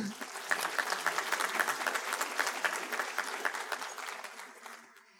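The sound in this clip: An audience applauds at an event thanking its sponsors. The dense, even clapping keeps up for about five seconds before fading out at the end.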